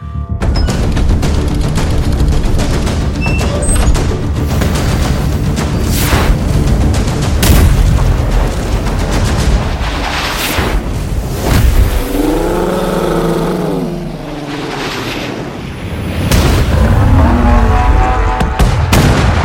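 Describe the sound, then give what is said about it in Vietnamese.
Cannon fire and loud explosions in a battle scene, sound effect: a dense, continuous wall of booming blasts with repeated heavy bursts, dipping briefly before a final loud surge. “Quân binh xả pháo vào quả ngưu. Trâu nghe tiếng nổ lớn, liền sợ hãi mà giạt qua hai bên.”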